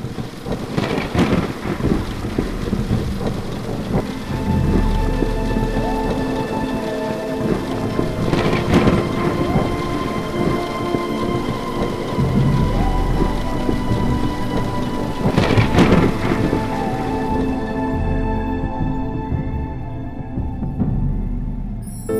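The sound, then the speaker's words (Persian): Steady, dense rain pours throughout while a few heavy thunder rumbles roll through, loud and broad, before the rain's hiss thins out near the end. “آسمان می بارد و می باردش باز”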